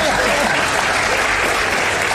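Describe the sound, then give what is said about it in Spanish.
Audience applause during a comedy stage routine: loud, dense, continuous clapping that fills the whole brief clip at an even level. “¡Vamos! ¡Que aplauden!”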